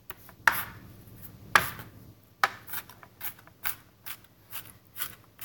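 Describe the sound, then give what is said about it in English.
Food being minced with a knife: many crisp, sharp chops at an uneven pace, with three louder strikes early on giving way to a steadier run of quieter, rapid cuts, with no talking. “Okay, let's get minced up.”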